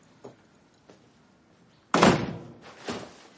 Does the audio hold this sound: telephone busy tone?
no

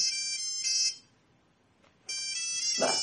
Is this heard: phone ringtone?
yes

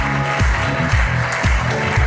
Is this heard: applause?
yes

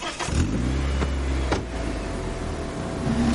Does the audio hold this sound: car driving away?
yes

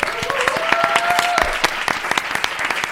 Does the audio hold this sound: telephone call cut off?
no

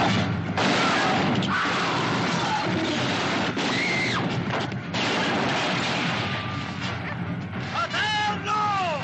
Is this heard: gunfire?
yes

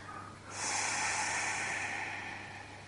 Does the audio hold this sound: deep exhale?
yes

